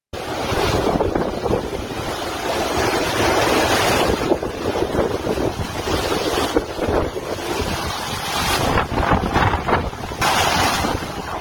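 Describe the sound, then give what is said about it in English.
Hurricane winds pounding Fort Myers, Florida, during a major hurricane landfall: a continuous, loud roar of wind buffeting the microphone, with surging gusts and no let-up. No one speaks. “it is the fifth strongest hurricane ever to make landfall in the continental U.S. Here is the sound of it pounding Fort Myers earlier today.”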